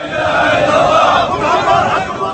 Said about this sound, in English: As coffins were carried aloft and placed before the building, mourners chanted defiantly.